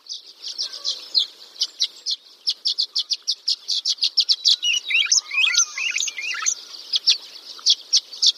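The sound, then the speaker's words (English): Violet-green swallow songs and calls: many short, high chirps come in quick irregular runs. A burst of overlapping twittering and warbled notes rises in the middle. “Those were the songs and calls of the violet-green swallow.”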